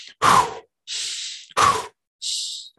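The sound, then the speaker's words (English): Rapid Tum-mo meditation breathing is demonstrated: two forceful, loud, breathy rushes of air, each followed by a softer, hissier breath, in a quick, regular rhythm with short silences between them, then a final breath beginning at the end. “breathing is a form of meditation where you're breathing in and out really sort of fast. You're taking your inhale is longer than your exhale.”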